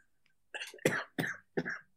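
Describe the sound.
A short coughing fit: a few harsh, breathy coughs burst out in quick succession, each rough and fairly loud, with nothing else heard.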